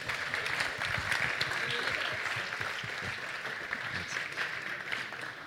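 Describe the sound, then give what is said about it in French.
Audience applause at a startup pitch competition, a steady, fairly faint wash of many hands clapping that continues evenly throughout. “Merci beaucoup, on peut les applaudir s'il vous plaît.”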